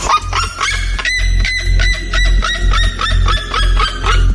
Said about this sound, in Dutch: De vogels schreeuwen met 120 decibel zo hard dat mensen in de buurt beter hun oordoppen in kunnen doen. Een van die vogels is de kuifserima. En die klinkt zo.